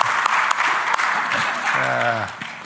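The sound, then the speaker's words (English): An audience claps steadily in dense, even applause that fills the whole stretch, while a voice briefly speaks over it near the end. “Let's give Donna a hand.”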